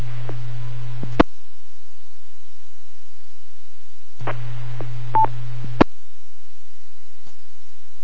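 Radio repeater kerchunks: two bursts of static with a low steady hum, each cut off by an abrupt click and separated by a few seconds of silence, with a faint tone inside the second burst.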